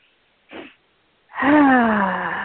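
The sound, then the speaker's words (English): A short inhale is followed by a long, loud, voiced sighing exhale through the mouth during a calming breathing exercise, its pitch drifting slightly downward as the breath trails on. “you basically take one long inhale through your nose and then one extra little inhale. And then you exhale through your mouth like a big sigh. So it's like this.”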